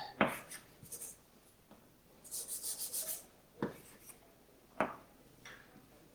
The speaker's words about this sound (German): Ich schreibe nochmal dahin, was das heißt.